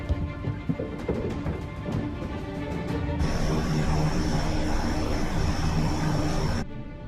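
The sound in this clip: Steady, fairly loud drone of an airplane in flight. The broad engine roar runs throughout, and a brighter high hiss joins it midway and then cuts off shortly before the end.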